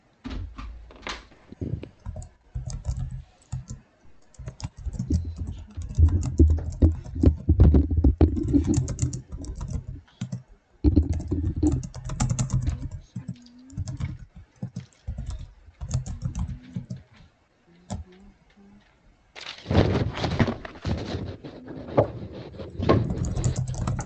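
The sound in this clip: Typing on a computer keyboard: many rapid, uneven clicks and taps in bursts, with short pauses and a faint voice talking at times.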